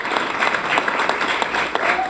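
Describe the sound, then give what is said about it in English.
Applause from environmentalists in a packed conference room as monarch butterfly census figures are announced: dense, steady clapping from many hands, loud and sustained throughout. “Environmentalists burst into applause as this year's better-than-hoped-for monarch butterfly census figures were announced to a packed conference room.”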